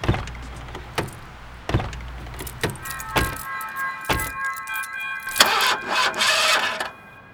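A raggedy car, just back from a tune-up and out of gas, cranks in several short, heavy bursts without catching, followed by a sustained whirring, ringing tone toward the end.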